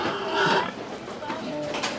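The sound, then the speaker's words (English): Alarmed pigs of about 250 pounds each grunt and shuffle in the back of a truck, heard through a grate, with a steady noisy background. “You can see the pigs through a grate in the back of the truck. They're alarmed, confused, and big. They're about 250 pounds.”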